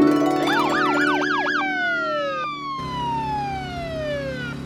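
A police car siren, from a traffic stop for speeding, yelps in rapid rising-and-falling pitch sweeps, then holds a single long tone that glides steadily downward, over a low steady hum.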